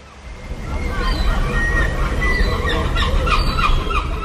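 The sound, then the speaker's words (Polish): Gulls call at the shore in Kołobrzeg, a Pallas's gull and a common gull among them. Repeated harsh, honking cries rise over a constant wash of background noise. “Tutaj jest mewa orla, a tutaj mewa siwa. To one tak krzyczą rano?”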